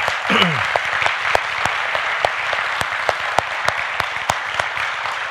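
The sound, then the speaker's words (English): A church audience gives loud applause for the worship team. Dense clapping runs steadily throughout, with crisp individual claps standing out and a brief vocal cheer near the start. “Let's take a second to give a thunderous applause to the worship team.”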